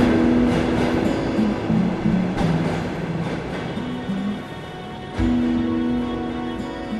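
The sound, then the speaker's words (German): Rumble of a Soviet-era tram running through a city center in Lviv, with a steady low drone and humming motor tones that dip and then surge back louder toward the end. “Eine Straßenbahn aus sowjetischen Tagen bringt mich in die Innenstadt.”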